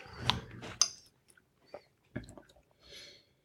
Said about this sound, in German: ich würde sagen, wir nehmen noch mal einen Schluck.